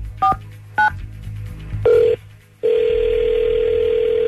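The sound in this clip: A telephone is dialed: two short touch-tone beeps, then a longer tone, then a steady continuous tone as the line connects and rings, with no voices.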